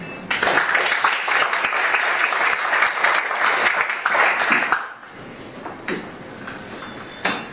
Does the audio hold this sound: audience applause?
yes